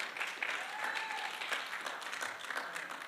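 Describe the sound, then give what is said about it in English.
An audience at a youth night service applauds the performers with steady, dense clapping that holds at an even level throughout. “Yeah, let's give it up for them.”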